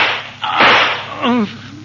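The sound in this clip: A single pistol gunshot, a sharp whip-like crack, is followed shortly by a brief voice.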